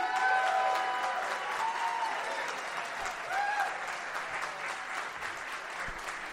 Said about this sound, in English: Please put your hands together for the comedian Matt Lieb!